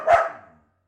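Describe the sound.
A female dog barks once on command, a single short, sharp bow-wow that quickly fades to silence.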